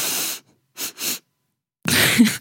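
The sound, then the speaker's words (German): Three sharp breaths drawn in through the nose, the first long and deep, the next two short and quick in close succession, followed by a longer breathy rush of air. “Und zwar, du musst dreimal scharf durch die Nase einatmen. Mhm. Und das erste Mal davon tief einatmen. Und die anderen zwei nur kurz, aber sehr scharf.”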